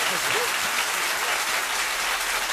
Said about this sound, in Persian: خوب کف بزن